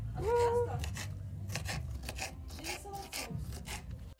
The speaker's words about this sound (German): Pepperoni schneiden.